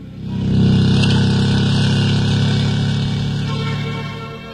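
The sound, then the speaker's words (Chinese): Motorcycle speeding away: a loud engine roar swells quickly at the start, holds steady and sustained, then eases off toward the end, with no voices. “驾起摩托向郊县方向疾驰而去”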